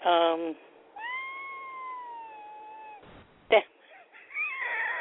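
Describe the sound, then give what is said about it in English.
A cat meows for attention, giving one long, drawn-out, clear meow followed by a short sharp sound and then a shorter meow. A brief voice is heard just before the first meow. “That was my cat, one of my cats, just demanding my attention.”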